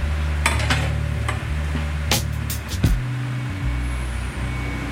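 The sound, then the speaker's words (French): Pork meat and fat, about 50 kg of meat with 20 kg of fat, slowly cooking down for Tours rillettes: a steady, broad sizzling hiss over a low drone, broken by a few sharp knocks. “On va avoir mis 20 kg de gras pour 50 kg de viande, à peu près moitié de gras que de viande. Ça va pouvoir confire toute la matinée. Oh là, on va laisser cuire ça au moins 6 heures.”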